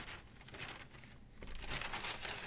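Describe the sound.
Newspaper pages rattling as someone searches through the paper: faint, papery rustling and crinkling in a few soft bursts, with no talk.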